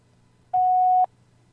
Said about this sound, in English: To use this, please record your personal greeting after the beep.